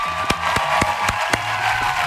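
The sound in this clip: A few sharp, evenly spaced hand claps mark a 46th wedding anniversary, crisp rhythmic slaps over a steady tonal hum.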